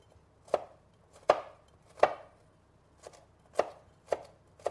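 A knife chops ingredients on a board for a simple sautéed potato dish. Several sharp, separate chops land at an uneven pace, each a crisp thud with a short ring. There is no talk over them.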